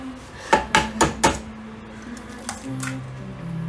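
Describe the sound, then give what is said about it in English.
Eggs are cracked against a hot meat pan: a quick run of four sharp taps, followed by a couple of fainter clicks. “But we just put those over the meat pan right now. Heat up. Crack a one egg or two.”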